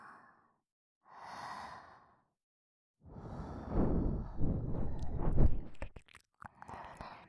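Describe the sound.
Soft breaths and gentle nibbling on the outer ear in ASMR: two quiet exhales first, then a longer, louder stretch of wet nibbling with small clicks and crunchy mouth sounds.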